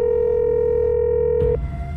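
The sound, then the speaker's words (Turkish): Telephone dial tone heard while a call is placed, a steady, buzzing tone held for about one and a half seconds before it cuts off into low noise. “Yarım saat önce konuşmasını kabaca yarıda bıraktığım Leyla Barkın'ı aradım bir kez daha.”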